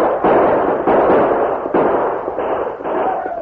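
Gunfire in a radio western shootout as a posse surrounds outlaws and keeps firing down at them. Many loud, dense blasts run in a near-continuous string for several seconds.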